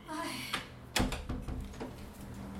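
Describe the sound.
A door is shut by a small child at home, one short knock standing out about a second in, with child and adult voices talking throughout.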